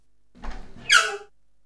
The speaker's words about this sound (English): Open the cupboard.